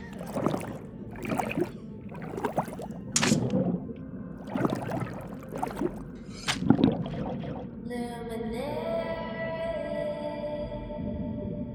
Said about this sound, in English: I'm just going to swim in the opposite direction now and get some more fireweed just in case.